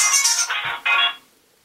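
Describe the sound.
A phone rings with an incoming call, a short electronic ringtone of three buzzy bursts: a bright first burst followed by two lower ones, the last cutting off abruptly into silence.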